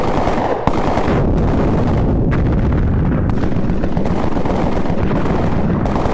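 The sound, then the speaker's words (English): Dense gunfire and explosions from an action film trailer roar continuously, a loud, unbroken wall of blasts and rapid shots with no pause. “Expendables 3, if you love all the gunfights, the bombs”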